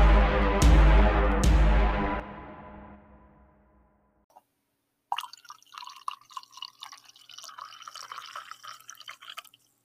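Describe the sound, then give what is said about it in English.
Coffee being poured: two sharp clinks and a fading ring come first, then after a short pause a bubbly, trickling pour of liquid runs to the end, with no talk. “There probably is already a built-in coffee pouring sample in Anchor.”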